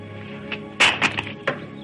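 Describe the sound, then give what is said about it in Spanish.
A rifle is thrown to the ground during a tense western standoff, landing with a heavy thud followed by a few lighter knocking clatters. “Ben arroja el rifle y avanza hacia Joey”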